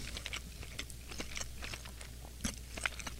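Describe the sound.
Soft chewing and faint spoon clicks from someone eating a fish dish seasoned with salt and pepper, with scattered quiet crunches and taps spread through an otherwise hushed background.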